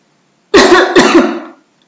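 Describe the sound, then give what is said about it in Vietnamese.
Dry coughing from a woman slumped in a car's passenger seat on the way to the hospital: four quick, harsh, fairly loud coughs in a tight cluster, trailing into a rough exhale before silence. “Đáp lại anh vẫn là tiếng ho khan, khiến anh càng khẩn trương.”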